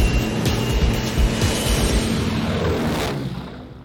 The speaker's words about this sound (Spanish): Iniciamos carrera de despegue.